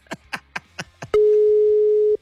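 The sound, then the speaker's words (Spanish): An outgoing telephone call being dialled and then ringing: a quick run of short, crisp dialling blips, followed by one loud, steady mid-pitched tone held for about a second. “Ahí está sonando, ya está marcando.”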